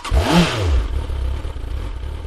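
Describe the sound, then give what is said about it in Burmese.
A motorcycle engine starts up with a quick rev that sweeps up and back down. A steady, fairly loud exhaust rumble follows, with some light clatter and no voices. “ဆိုင်ကယ်ရဲ့အိတ်ဇောပိုက်ကနေတဘုံဘုံနဲ့အတန်တွေထွက်လာပါတော့တယ်”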